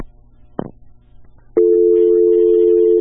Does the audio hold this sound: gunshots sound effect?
no